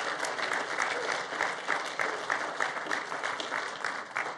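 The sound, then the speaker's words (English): An audience applauds to welcome first-time visitors, a dense, steady wash of many hands clapping that holds at a moderate level for about four seconds with no voices over it. “And we do that around here by just honoring you by clapping for you.”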